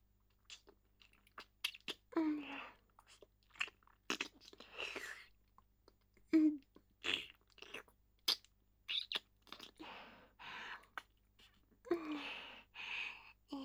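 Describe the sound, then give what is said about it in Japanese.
Fingers are licked in a catgirl ASMR roleplay, with many wet smacking, sucking and clicking mouth sounds in irregular bursts and soft breaths between them. “やっぱり君の指、おいしい。指舐めるの、好き。”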